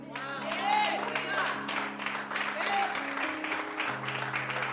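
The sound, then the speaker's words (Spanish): An audience applauds with steady, continuous clapping throughout. A voice speaks over it, and sustained musical notes hum underneath. “Gracias por aplaudirme.”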